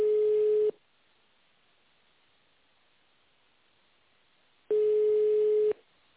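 Telephone ringback tone while a call is forwarded to an operator: two long, steady mid-pitched beeps, each about a second, separated by several seconds of near silence, with no talking.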